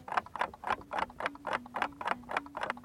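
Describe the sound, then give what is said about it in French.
Clock ticking in a steady, even tick-tock rhythm: many crisp, evenly spaced clicks, fairly faint and heard alone. “Tout se joue au niveau du tic le tic et le tac sont séparés par une distance égale.”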